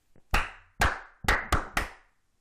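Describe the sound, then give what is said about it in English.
Five crisp hand claps in a rhythm used to quiet schoolchildren lined up after recess: two spaced claps, then three quicker ones, clear and alone. “they had to be in a line at the end of recess, and they had to clap like this”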